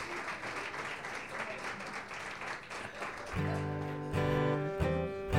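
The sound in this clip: Audience applause welcomes a performer: steady, dense clapping for a few seconds, after which sustained musical tones come in beneath the fading applause.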